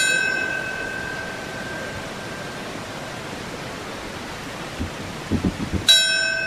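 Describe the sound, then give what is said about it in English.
A bell rings at a September 11 memorial ceremony at the World Trade Center plaza in New York. A lingering metallic tone fades slowly over a steady background hiss, then one fresh, clear strike rings out near the end. “a bell was rung at the time Flight 175 hit the Southern Tower, and a moment of silence was observed.”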